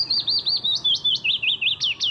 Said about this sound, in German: So singt ein Fitis, ein kleiner gelb-grau gefiederter Vogel.